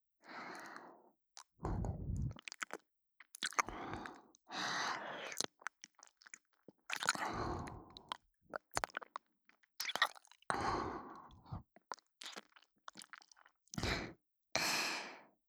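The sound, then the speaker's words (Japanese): Gentle biting and chewing: many soft, wet crunches and mouth sounds come in short separate bursts, quiet and close, with faint breaths between them and no talking. “優しく噛むだけですからね。ほら、こんな風に。”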